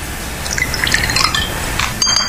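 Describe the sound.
Soju mixed with 7 Up is poured into a small glass without ice, a steady trickling, gurgling stream of liquid that continues throughout at moderate loudness.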